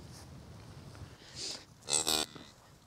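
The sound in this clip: Cattle on a farm with newborn calves: one drawn-out, harmonic moo stands out loud near the end over a low, steady rumble, with a brief fainter sound shortly before it.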